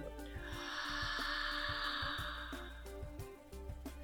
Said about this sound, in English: I'd love for you to take a nice big deep breath in. And then exhale out.